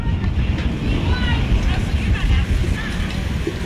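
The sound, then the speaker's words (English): Gusty wind blows in from left center field across a baseball field during a game, a dense, steady low roar with slight buffeting swells that continues without pause. “Gusty wind blowing in from left center field.”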